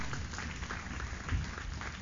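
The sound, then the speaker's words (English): Congregation clapping during a church service, a steady dense patter of many hands that holds at an even level for the whole span and swells briefly near the end, with no talk over it. “Give the Lord a clap offering, somebody.”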